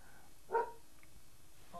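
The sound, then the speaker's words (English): One short dog bark stands out, faint and brief, against a quiet background, with a softer trace of sound near the end. “That's my dog.”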